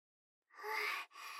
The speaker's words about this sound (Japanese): シコシコって言いすぎて、ちょっと息切れしちゃいました。